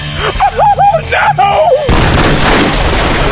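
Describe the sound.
A gunfire blast from an Uzi bursts in after a shouting voice and becomes a harsh, loud roar that lasts to the end.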